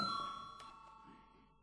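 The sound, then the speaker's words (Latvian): A bell rings to call a vote in a parliament session. One faint, sustained metallic tone holds a steady pitch and slowly fades away. “lūdzu zvanu”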